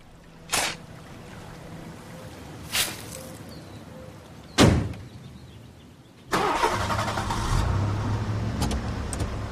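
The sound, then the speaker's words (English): A car starts up and backs out of a driveway: three sharp knocks at spaced intervals, then the engine catches and settles into a steady, moderately loud running rumble. “Eldridge starts up his car and backs out of the driveway”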